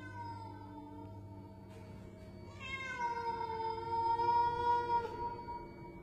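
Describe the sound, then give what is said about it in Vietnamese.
A cat meowing late at night, a long, drawn-out wailing cry in the second half after a fainter earlier call, heard over a low steady hum and fairly quiet overall. “Bỗng đâu có tiếng con mèo nó kêu lên từng hồi, nghe đến buốt cả ruột.”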